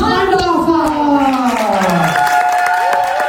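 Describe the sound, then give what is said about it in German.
An audience applauds and cheers as a performer is called onto a stage, a dense, steady patter of clapping under a loud, gliding voice. “Ja, das erste Los ist gezogen worden und wir klatschen ihn auf die Bühne.”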